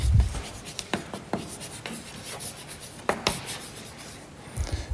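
Someone writes a name by hand, giving soft scratchy strokes and rubbing scrapes broken by several sharper taps, uneven in rhythm and fairly quiet.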